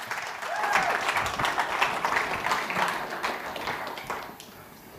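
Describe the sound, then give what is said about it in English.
A church audience applauds during a morning service as the next speaker is introduced. Dense, steady clapping from many hands carries on for several seconds, then thins and fades near the end. “Hey, can we give it up for James Wong, who's going to be bringing the word this morning?”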